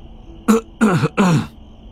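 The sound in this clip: Three short, rough coughs in quick succession, the first brief and the next two longer and throatier, with nothing else around them.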